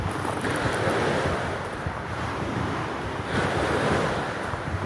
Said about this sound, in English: And the waves crash.